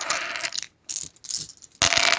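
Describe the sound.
Five dice being rolled, clattering and rattling in a few sharp bursts separated by short pauses, ending in a loud, dense clatter.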